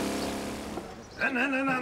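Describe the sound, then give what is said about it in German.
A motorcycle engine drones, then revs up with a rising pitch as the bike rides up onto a ramp at a motorcycle jumping display. “Aber warte mal jetzt, nicht gleich auf die Rampe fahren mit dem Motorrad.”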